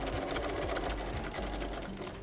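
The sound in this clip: A sewing machine stitches fabric while the material is turned at a corner, a steady, even mechanical whir running unbroken for about two seconds with no talk.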